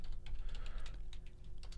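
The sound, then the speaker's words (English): Quiet, rapid typing on a computer keyboard as a search is entered: a quick run of many soft key clicks in an uneven rhythm. “Type in Issei, Issei summons.”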